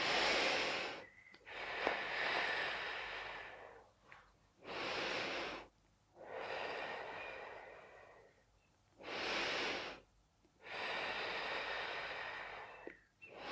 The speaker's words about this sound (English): Inhale, open up. Exhale, squeeze.